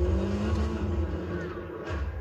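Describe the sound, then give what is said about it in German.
An automatic car drives on a self-built race track in the Fortnite video game, giving a steady, low engine drone with strong, even harmonics and little change in pitch. “Junge, ich hab doch einen fucking Rennstreck gemacht. Automatisches Fahrzeug.”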